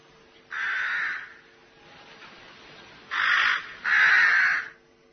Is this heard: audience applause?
no